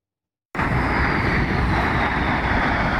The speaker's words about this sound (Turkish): Piramitlerin üzerinde gökyüzünü kesen jetler, kusursuz manevralar ve ay yıldız şeklinde bırakılan duman izi.